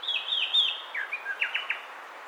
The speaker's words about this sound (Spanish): Escuchamos al cucarachero sepia, que mide unos 17 centímetros y tiene el plumaje marrón oscuro con garganta blancuzca